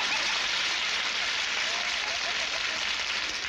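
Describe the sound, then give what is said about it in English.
A General MIDI applause sound effect: a synthetic, hiss-like wash of clapping with no distinct individual claps, steady and unchanging throughout and heard alone. “Yeah, I guess it's supposed to be applause. It's kind of bad, but... And such as that. So that's kind of, you know, what a general MIDI bank is all about.”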